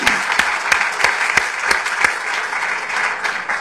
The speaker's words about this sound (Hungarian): Give her a hand, come on. Tapsoljuk meg.